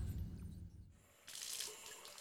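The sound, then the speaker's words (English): A faucet is turned on and water sprays from its nozzle. A faint low rumble gives way partway through to a soft, steady hiss of running water. “turned on the faucet and a spray of water jetted from the nozzle.”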